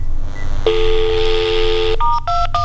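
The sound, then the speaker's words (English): Telephone keypad tones dial a voicemail access code, star 21: one long, steady beep followed by a few quick, shorter tones at different pitches, loud and clear over a low hum. “Well, wait a minute, I can do it this way. Hang on. *21 is how you get into my voicemail.”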